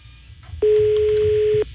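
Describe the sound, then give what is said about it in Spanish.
Ringback tone of an unanswered telephone line: one loud, steady mid-pitched ring lasting about a second, starting and stopping abruptly over a low background hum. “A ver si nos contestan. Aquí en la línea número 1. Está sonando, mira, no contesta.”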